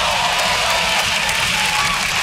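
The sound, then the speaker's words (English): Applause from a stand-up comedy audience, a brief burst of dense, continuous clapping that holds at a steady, fairly loud level from start to finish without voices. “Never as much applause on that part.”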